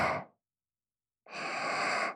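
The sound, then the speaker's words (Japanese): A slow, deep breath drawn in makes a steady rushing hiss that lasts about a second. It follows the brief tail of an earlier breath that fades out, with silence between the two. “ゆっくり息吸って、ほら吸って、”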